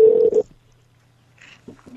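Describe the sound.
A telephone number being redialed after a busy line: a steady tone cut short near the start, then silence and a few faint, brief electronic tones.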